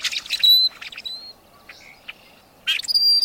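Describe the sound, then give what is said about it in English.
Creaky song of a rusty blackbird, high squeaky notes like an ungreased hinge mixed with rasping chirps. The notes come in two bright bursts at the start and end, with a quieter stretch of faint calls between. “While it might sound like a door hinge that needs some grease, this is the song of the rusty blackbird.”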